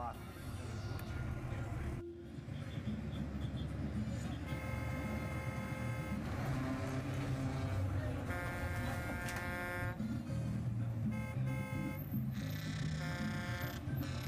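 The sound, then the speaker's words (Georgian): A loud bus horn with a deep, ship-like blare sounds in several long, sustained blasts over constant traffic rumble, with voices murmuring in the background. “ავტობუსები ძალიან ხმაურობენ. ასე მგონია, გემის საყვირი აქვს დაყენებული.”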